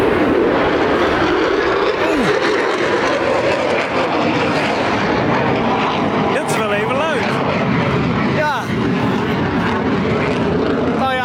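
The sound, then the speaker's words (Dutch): A loud, continuous jet roar from an F-35 fighter flying low over a village stays strong and dense throughout, and a voice is briefly heard over the noise. “F-35 die vliegt vlak langs het dorp.”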